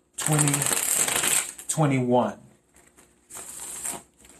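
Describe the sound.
Tarot cards being shuffled for a reading, a brisk papery riffling that runs in two long stretches with a short pause between them.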